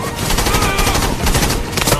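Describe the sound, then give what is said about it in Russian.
Dense gunfire from soldiers shooting at charging riders: loud, continuous rapid shots that overlap into a sustained roar of bursts. “Огонь! Пули косят ряды всадников.”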